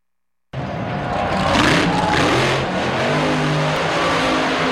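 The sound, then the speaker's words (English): A monster truck engine revs loudly at a Monster Jam arena show: a deep, continuous roar begins after a short silence, swells slightly midway, then holds steady without a break. “You know what that is, right? You know that sound. Yes, Monster Jam returns to downtown this weekend.”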